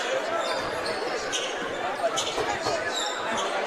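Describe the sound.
A basketball is dribbled during a game, a few faint thuds under steady, loud crowd noise throughout.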